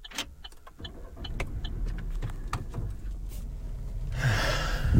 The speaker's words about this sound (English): That was the sound of me loading in all of our stuff, because we have so much stuff.